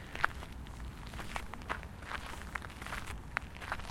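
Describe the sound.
Slow footsteps of an elderly man out for a stroll, an unhurried series of soft, evenly spaced steps heard alone at a gentle, deliberate pace.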